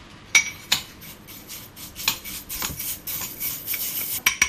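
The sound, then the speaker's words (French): Quick knife chopping of vegetables such as tomato and green pepper for a millet salad: several sharp knocks spread unevenly, joined by rasping, scraping strokes, with no voices. “Ensuite, on va rapidement couper les légumes.”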